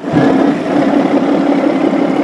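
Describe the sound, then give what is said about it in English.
Fishing boat engine of a Fukushima fisherman leaving port at 4 a.m., a loud, steady droning throb with a broad rumbling body, holding an even level from start to end. “It's 4 a.m. and Akira Kaya leaves the safety of port, steering his fishing boat east towards the blood red of the dawn horizon.”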